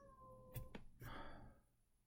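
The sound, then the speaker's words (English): Faint cat meowing, with a few brief calls against a quiet background. “I'm sorry about the cat.”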